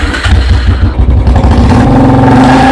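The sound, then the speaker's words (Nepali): A Royal Enfield Bullet motorcycle rides off with its engine running loud and continuous in a deep, throbbing chug that steadies into an even hum toward the end. “आज bullet चढाएर मलाई घुमाउन लाने भने हैन? ओ, साच्ची हो त, आज तिम्रै पालो हो नि। Okay, let's move.”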